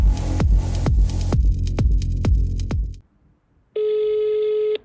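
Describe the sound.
Telephone dialing, then a line tone: a rapid run of many clicking, falling dial sounds, then a short silence and a steady, even electronic tone that holds to the end.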